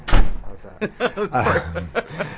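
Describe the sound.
A door shuts with a dull, heavy thud at the very start, followed by people talking and chuckling.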